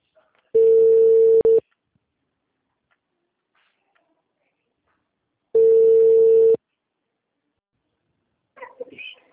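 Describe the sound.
Ringback tone of an outgoing telephone call: two steady one-second tones, loud and evenly pitched, separated by about four seconds of silence, with a brief voice just starting at the end.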